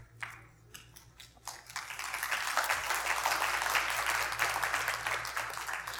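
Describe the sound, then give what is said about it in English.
Sleepy, subdued audience applause at a church service rises after a few brief taps and settles into a steady, moderately loud patter that continues to the end. “I love the applause. It's like daylight savings time's applause. It's like, it's kind of sleepy applause.”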